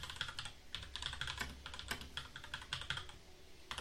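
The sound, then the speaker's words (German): Rapid typing on a computer keyboard while writing a Discord message: many crisp keystrokes in a fast, steady, slightly uneven rhythm, heard alone without voices. “ich schreibe dir gerade was auf Discord, ne? Musst du mal lesen.”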